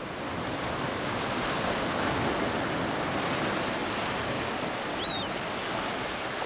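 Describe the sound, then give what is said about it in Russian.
Sea waves give a continuous, dense roar of surf that stays loud and even throughout, with no pauses or separate breakers standing out. “Это звук моря.”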